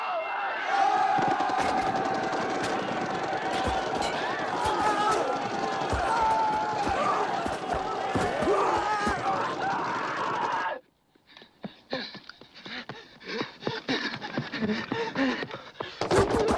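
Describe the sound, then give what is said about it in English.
Machine gun fire from a film battle scene, a hopeless attack on a Turkish line, forms a dense, continuous roar of rapid sharp bursts. Near the end it cuts abruptly to sparser, crackling bursts. “in this moment, he's riddled with, as he's riddled with machine gun fire from in a hopeless attack on the Turkish line.”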